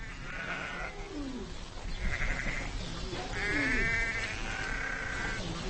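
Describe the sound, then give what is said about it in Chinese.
A ewe in labour, giving birth to a lamb, cries out in several hoarse, drawn-out bleats over a constant rough background noise. “分娩中的母羊非常痛苦。”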